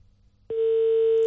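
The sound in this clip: An unanswered telephone call tone: after a brief near-silent gap, a single steady mid-pitched tone starts abruptly and holds unbroken to the end.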